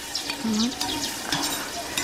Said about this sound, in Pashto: غوړي خو ډېر نه دي خو زه وایم چې پیاز به پکې ډېر نه سوځو که څنګه.